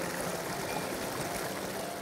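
Water flows and trickles steadily from a sacred spring that has been worshipped since the Neolithic, with offerings lying in the water. The even, hissing rush of water continues unbroken, and no voices are heard.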